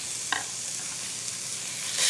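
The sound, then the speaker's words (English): Onions and bell peppers sizzle in butter in two iron skillets, a soft, steady frying hiss with a brief clink near the start and a louder burst of sizzle at the very end. “I've got some butter going in 2 separate iron skillets. So I'm gonna add 1/2 the onion to each one, and a bell pepper to each one,”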